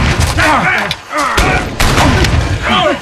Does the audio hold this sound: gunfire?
yes